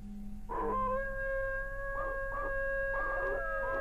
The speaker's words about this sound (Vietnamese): Bất chợt, một tiếng hú dài phá tan sự im lặng của khu rừng.